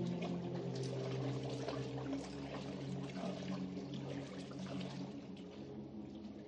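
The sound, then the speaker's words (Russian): Continuous water sloshing and splashing as a woman swims across a wide river, leaving a foamy wake, steady and moderately loud throughout with a low tonal drone underneath. “За плывущей Марфой тянется по воде пенный след. Вид сверху на плывущую через широкую реку женщину.”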